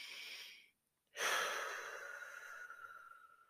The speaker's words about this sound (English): take a breath. Inhale, exhale.